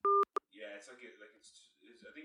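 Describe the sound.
Telephone dialing tones on a call back: a long two-tone beep, then a short second beep, followed by voices talking over a phone line.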